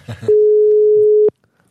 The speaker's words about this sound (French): on va l'appeler et on va voir si elle nous répond. D'ailleurs, si ça sonne, attention les vélos.